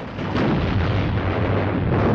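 Heavy artillery fire pounds the grounded ship Amethyst as a loud, continuous, deep rumbling roar that stays dense and unbroken throughout.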